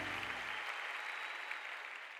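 Applause from an audience: a steady wash of many hands clapping, even and continuous, with a low rumble under it that drops away early while the clapping carries on.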